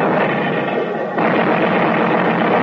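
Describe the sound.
A navy artillery barrage played as a radio-drama sound effect: a dense, sustained roar of heavy gunfire and blasts that merge into one loud, continuous rumble with no clear separate shots and no voices.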